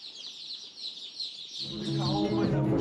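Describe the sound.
Chicks cheeping: steady, high-pitched peeping runs through the whole clip, and a lower, harmonic tone joins for the second half.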